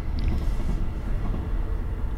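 Steady rumble of a train passing outside an open window, a continuous loud low roar with no clear breaks and no voices.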